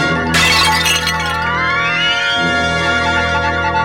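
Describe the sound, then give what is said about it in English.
A toppling statue crashes down with a loud burst of shattering and breaking debris near the start, then gives way to lingering, ringing tones. “Then, as if it had been disturbed by some insidious force, the statue suddenly tumbles over.”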